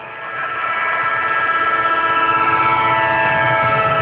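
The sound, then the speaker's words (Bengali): A train departing: a sustained, horn-like tone sits over a steady rumbling clatter that swells during the first half second and then holds loud and even, with no voices. “এদিকে train ছেড়ে দিচ্ছে।”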